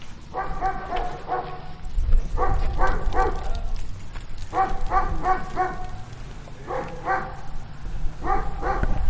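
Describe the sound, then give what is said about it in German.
A dog barks in Brandenburg, the dog of a local electronics shop, in five separate bursts of several quick barks each, spaced evenly apart over a steady low background rumble. “Bellt auch mal irgendwo ein Hund. Auch mal direkter.”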